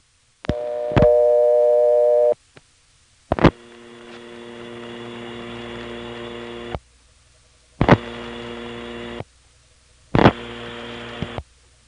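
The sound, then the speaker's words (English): Telephone call tones through two Type 2 trunks end-to-end, dialing 7 plus a number: a steady tone and sharp clicks, then several bursts of buzzy line noise and tones separated by silences. “Here's a fourth one, through two Type 2 trunks end-to-end. I'll be dialing 7 plus the 879 number.”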